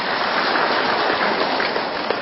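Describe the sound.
Applause from an audience at a Buddhist teaching session during a quiz, a dense, steady clapping that fills the whole short stretch with no voices over it.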